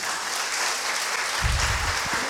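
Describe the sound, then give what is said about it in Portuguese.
Applause from a church audience: a continuous, brisk wash of clapping, joined partway through by a low rumble of movement and voices. “Pode aplaudir.”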